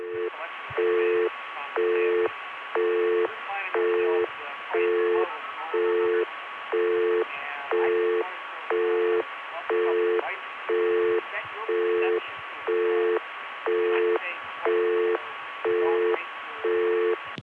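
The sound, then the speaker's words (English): A busy signal comes from a Bell System 770 crossbar PBX with a phone left off the hook. It is a regular on-off tone, about one burst per second, and faint voices from the room bleed through beneath it. “This comes from one of the Bell System's Crossbar PBXs, the 770, I think. The busiest talkable, and phones left off the hook.”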